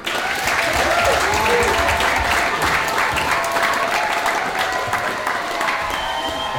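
Applause from a live show audience: a dense, loud patter of many hands clapping that starts abruptly and holds steady throughout.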